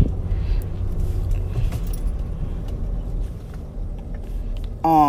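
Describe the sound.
Low, steady engine and road rumble from a car being driven, continuous and even, with no talk over it.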